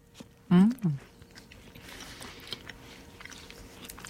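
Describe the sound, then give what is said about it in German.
A bite into a Gugelhopf cake with pistachios, cranberries and limoncello, a brief soft crunch with a short voiced murmur, followed by faint quiet chewing. “Ja, aus dem neuen Kochbuch ist es ein Gugelhopf mit Pistazien, Cranberry und Limoncello. Okay, wir probieren das mal. He? Bissen wir gerade gleichzeitig rein? Ja. Eins, zwei, drei.”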